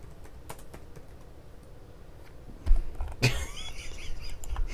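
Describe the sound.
Typing on a computer keyboard: faint, irregular key clicks that grow louder and busier in the second half.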